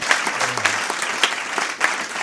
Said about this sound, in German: Einen Applaus.